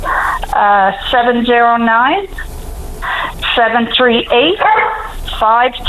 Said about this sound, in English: With a bark in there.